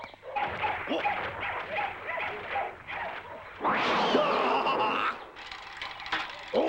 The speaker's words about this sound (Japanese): 犬や猫とかがたくさんいますな。 父さんがそこら中から捨て猫や捨て犬や捨て恐竜なんかを拾ってくるの。